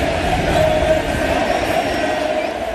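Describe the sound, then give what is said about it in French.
Stadium crowd giving a standing ovation at a football match in Kansas City: a dense, steady roar of cheering and applause that stays loud throughout the short clip. “Lionel Messi, lui, continue et continue encore jusqu'à sa sortie sous une ovation indescriptible.”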